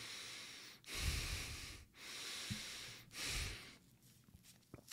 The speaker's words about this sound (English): So basically, I can't open my mouth, which means I'm forced to breathe through my nose.